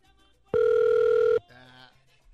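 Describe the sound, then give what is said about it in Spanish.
A telephone ringing over a call line: a single steady electronic ring tone about a second long, followed by a quieter voice speaking. “suena un teléfono.”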